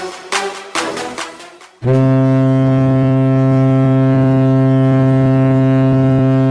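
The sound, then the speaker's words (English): A ship's horn sounds as a ship comes in: a loud, deep, sustained blast begins after a couple of seconds of brief, scattered other sounds and holds steady at full strength to the end. “Ah, that is the sound of my ship coming in.”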